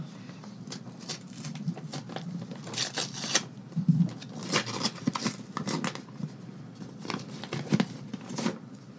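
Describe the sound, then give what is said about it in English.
Paper rustling as one envelope is picked at random from several, a soft, irregular crinkle and shuffle of handled envelopes with a few sharper crackles and no talk. “There are several envelopes in front of us, and we're going to pick one at random.”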